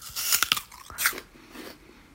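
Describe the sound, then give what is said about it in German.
Someone bites into a crunchy apple, opening with a quick run of sharp, crisp crunches, then a softer crunch and quieter chewing that fades out. “Und ja, natürlich schmeckt das gut. Mmh, knackiger Apfel”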